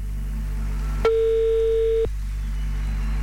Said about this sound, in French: l'ordinateur va appeler quelqu'un. Oh là là là là là là là, suspense, suspense, ça sonne, c'est parti.